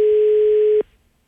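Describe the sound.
A telephone dial tone heard while calling someone back: one steady, loud, unbroken hum lasting under a second that cuts off abruptly into near silence.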